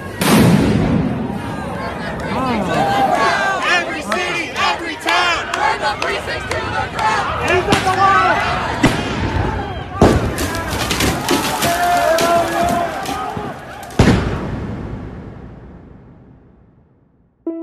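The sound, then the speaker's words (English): Drumming and chanting from Black Lives Matter protesters gathered in city streets in Portland: sharp percussive hits and crowd voices churn loudly throughout, broken by a few abrupt louder strikes before the noise fades away. “Black Lives Matter protesters gathered in the centre of the US city of Portland. There's drumming and chanting. This sound has filled Portland's streets for more than 60 nights since the death of George Floyd.”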